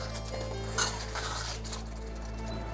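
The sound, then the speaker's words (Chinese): Boiled beef is gently stirred in a pot while it simmers: a few faint clinks and scrapes of a utensil over a steady low hum. “煮开以后，我们就轻轻的滑的推动一下它。”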